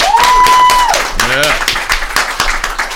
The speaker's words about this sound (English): Jude, welcome back to Seneca, and let's hear it for Jude, everybody.